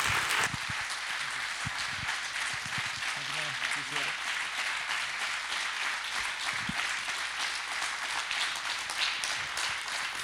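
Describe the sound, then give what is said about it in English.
A church audience applauds to welcome a speaker with steady, dense clapping that lasts throughout, and voices are faintly heard under it. “will you put your hands together and just welcome him as he comes today”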